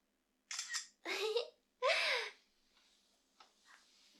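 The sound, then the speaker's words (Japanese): Camera shutter sounds as someone takes a selfie: three short, crisp bursts in quick succession, followed by a few faint, softer clicks. “写真を撮るよ。自撮りをします。”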